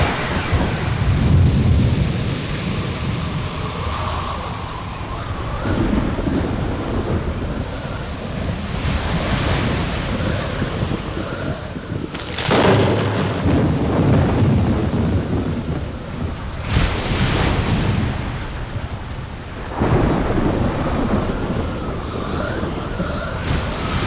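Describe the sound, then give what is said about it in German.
A thunderstorm at sea with a cloudburst: roaring wind and heavy surf form a dense, continuous rush, and several loud cracks and rumbles of thunder burst through it. “Böe von hinten. Ein Blitzstrahl gab das Signal. Die fahle Öffnung im Zenit schloss sich. Ein Wolkenbruch stürzte herab. Alles wurde dunkel. Die einzige Beleuchtung war der Blitz.”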